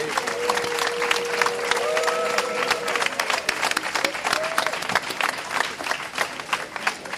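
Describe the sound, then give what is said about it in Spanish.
Audience applause at a 2015 tribute event: dense, steady clapping that fills the whole stretch at an even, fairly loud level without a clear break. “puede entrar a que le aplaudan”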